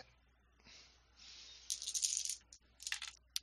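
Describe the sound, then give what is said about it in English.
A pool of dice, including two hunger dice, is rolled in a tabletop role-playing game. A soft shaking rustle leads into bursts of bright, clicking clatter, then a pause and a few final clicks. “Remember to include your two hunger dice in the pool.”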